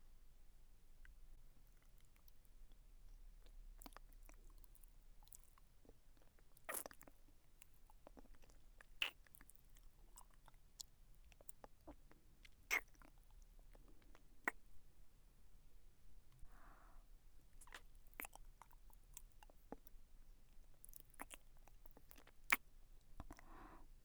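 Soft, wet mouth sounds of nibbling and chewing on an ear, made up of many irregular small clicks, smacks and moist crackles, quiet and sparse throughout with no talking.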